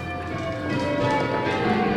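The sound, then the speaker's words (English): The church bells of a medieval abbey near the village of Pershore ring out in sustained, overlapping tones that hold steady and swell slightly. “They lived in that house not far from the village of Pershore, where time is marked by the bells of a medieval abbey.”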